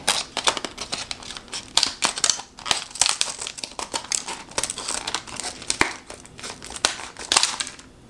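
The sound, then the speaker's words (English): Scissors cut open crinkly plastic product packaging in a busy run of crackling rustles and sharp snips, coming in irregular bursts with no talk. “I don't want to cut myself, so I'm going to get a scissor out and cut this packaging.”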